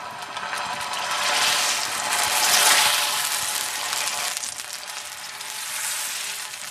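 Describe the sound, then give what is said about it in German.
Burger patty frying in a small oiled grill pan set on a grill grate, giving a continuous broad hiss and crackle that swells toward the middle and then settles to a steady sizzle. No talk. “Und ich habe mir jetzt hier auf den Grillrost so eine kleine, kleine Grillpfanne draufgelegt und da mache ich jetzt mal Öl drauf. So, und dann fangen wir einfach mal mit dem ersten Patty an.”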